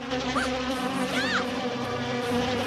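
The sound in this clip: Insects buzzing loudly and continuously, a steady drone with a few short gliding whines rising and falling above it.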